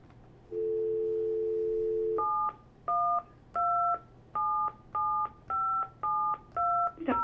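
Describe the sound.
Telephone keypad tones dial a dial-in number and access code: a long steady two-tone hum gives way to a quick run of many short, loud dialing beeps of varying pitch.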